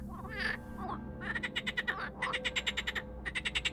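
A black frog croaking in repeated bursts of rapid, rattling pulses, each train of clicks fairly high and even, separated by short pauses.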